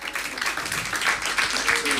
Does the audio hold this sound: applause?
yes